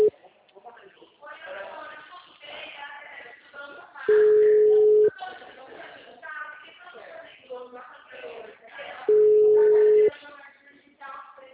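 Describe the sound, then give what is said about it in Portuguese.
Ringing tone of a WhatsApp phone call: two long, steady, mid-pitched tones, each about a second, several seconds apart, with a person talking in between. “Da Vanderleia tá chamando, mas dela nem chega a mensagem no WhatsApp.”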